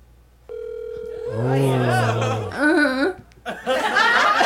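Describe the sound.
Ringback tone on a speakerphone call: a single long, steady, buzzing tone that holds for about two seconds, then gives way to laughter and voices.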